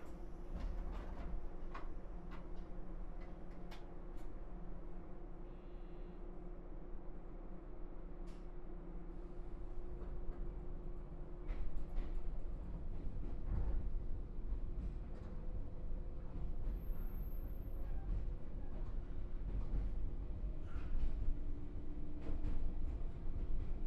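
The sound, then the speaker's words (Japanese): Low, steady rumble of a train setting off again, with faint clicks and a slight swell in noise partway through, and no talk. “では再び発車いたします。”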